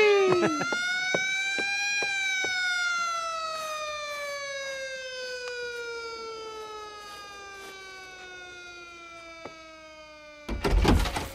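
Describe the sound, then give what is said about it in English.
A police car siren wails in one long sweep, rising for about two seconds and then sliding slowly down in pitch, with a brief burst of noise at the end. “And turn the siren wide open.”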